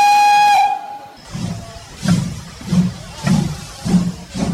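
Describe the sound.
A steam locomotive whistle sounds one steady, bright, high tone for about a second. It is followed by a regular series of heavy, rhythmic exhaust chuffs with hissing steam.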